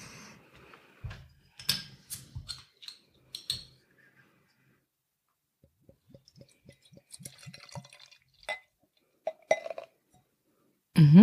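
A glass beer bottle of summery dry-hopped helles is opened and poured: a few scattered clinks and taps of glass, then a run of soft gurgling liquid pulses, ending in a louder swelling rush.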